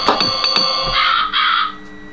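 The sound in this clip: Crow-like cawing bird call played from a sound effects machine, a few short harsh caws followed by a longer drawn-out call, loud and without talk.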